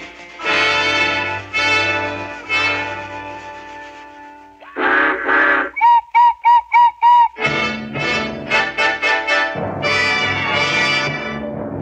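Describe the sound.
Locomotive whistle played by instruments in a radio cartoon about a sentimental locomotive: loud sustained chords, then a run of short, evenly spaced whistle toots, followed by further chord blasts.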